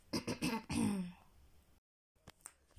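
Someone clears their throat in a short run of rough, gravelly bursts, then goes quiet except for a few faint clicks.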